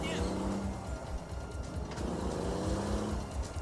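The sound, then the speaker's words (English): Motorbike chase scene from a film, with a steady engine rumble and a low droning tone running throughout at a fairly quiet level, while a man talks over it. “Here's the bike sequence where he's being chased.”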